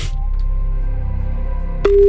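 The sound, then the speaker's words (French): A telephone line begins ringing as a call is placed: a steady, loud mid-pitched ring tone cuts in near the end after about two seconds of low, droning hum. “Allez, c'est parti, on appelle Fred.”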